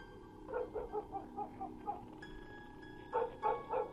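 Dogs barking at night, a quiet run of short yapping barks, a brief lull, then a few more barks in quick succession.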